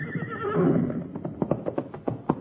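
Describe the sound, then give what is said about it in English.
A horse gives a loud, wavering whinny, then a quick run of sharp clopping hoofbeats follows, with no voices. “Now, if that ain't the smartest horse on 4 feet.”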